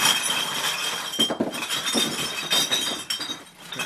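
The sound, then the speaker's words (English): Beer bottles crashing down at a recycling centre make a dense, continuous clatter of clinking and smashing glass, loud and steady throughout with brief louder bursts. “A beer avalanche, Sidoriak calls it.”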